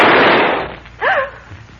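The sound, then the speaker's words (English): A single loud gunshot bursts out and decays into a long fading rumble. A brief voiced cry follows shortly after. “What in heaven's name? Who fired that shot?”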